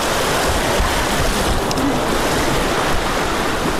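Floodwater rushes after heavy overnight rains in Uruzgan province, Afghanistan, a dense, loud, unbroken roar of churning water that holds steady throughout with no voices.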